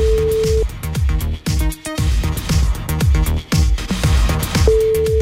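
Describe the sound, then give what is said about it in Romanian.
A phone line ringing on an outgoing call: a steady single-pitched ring tone sounds briefly at the start and again at the end, over loud beat-driven music with punchy percussion. “Sună la Corina din Botoșani.”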